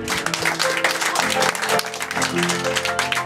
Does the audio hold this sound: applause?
yes